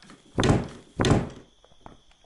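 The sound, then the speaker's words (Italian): Two heavy wooden thuds from a locked mine door being opened with a key in a video game, evenly spaced about half a second apart, followed by a few faint small clicks. “apriamo con la chiave vediamo che è chiusa”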